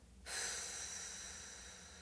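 A slow exhale during a relaxation breathing exercise: a soft, breathy whoosh that starts abruptly and tapers gradually over about two seconds, faint and alone.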